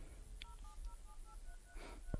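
Faint telephone keypad tones sound in quick succession as a number is dialed, several brief two-tone beeps in an even rhythm over low background noise.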